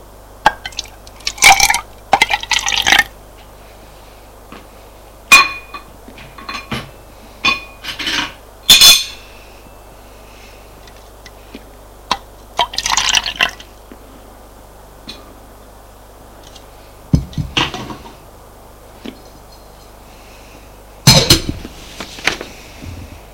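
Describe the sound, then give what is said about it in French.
Soup being poured into plates: several short, wet splashing and sloshing bursts separated by quiet gaps, with no talking. “Prend la soupe. Qu'il met dans les assiettes.”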